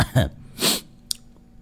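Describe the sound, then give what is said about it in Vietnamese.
Two short, harsh coughs from a person in a cold air-conditioned room, each a breathy burst, followed by a faint click and quiet. “Tự nhiên ho quá. Điều hòa lạnh.”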